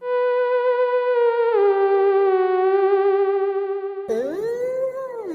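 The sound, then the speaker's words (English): A theremin plays a sustained, wavering electronic tone with gentle vibrato. The pitch holds mostly steady, dips slightly partway through, then swoops sharply up and around near the end. “Is a theremin a musical instrument or an animal? It sounds like this.”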